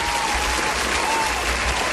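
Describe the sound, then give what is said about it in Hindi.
A group applauds a child, with steady, dense clapping that keeps an even level for about two seconds. “तालियां आफिया के लिए, तालियां.”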